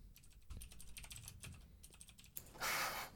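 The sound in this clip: Typing on a computer keyboard: many soft, quiet keystrokes clatter at an uneven rhythm, then a brief louder rushing noise comes near the end.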